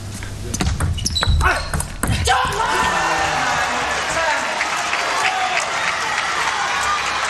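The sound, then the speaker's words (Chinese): Table tennis ball cracks off table and paddle during a professional match at nine-all, as a serve is met by a direct return winner: a few sharp, quick taps in the opening seconds, then a broad swell of crowd cheering and applause. “现在梁靖昆发球。”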